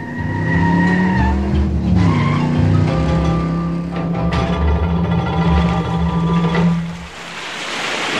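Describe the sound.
Car tires screech loudly and continuously as the car accelerates. A roaring engine runs beneath the high squeal, which dips in pitch briefly and then gives way to a broad rushing noise near the end.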